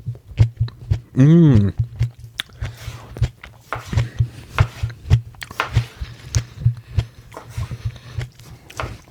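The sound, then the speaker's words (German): Biting into and chewing a fresh tomato: a steady run of many soft, wet, muffled chewing pulses after a brief tonal hum near the start. “So, ich muss die einmal probieren, die Tomate. Die sieht so lecker aus.”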